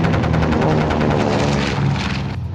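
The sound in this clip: An airstrike by a bomber hits monsters in a video game, a loud, dense roar of explosive rumbling with rapid rhythmic bursts running steadily throughout.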